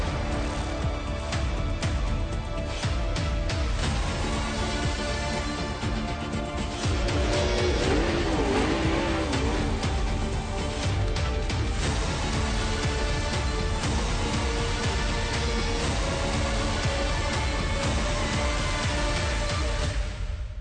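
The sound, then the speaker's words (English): Race cars roar around a motor speedway in one continuous, loud, dense wall of engine noise that holds steady throughout, with layered engine tones overlapping. “Mansfield Motor Speedway, we are racing!”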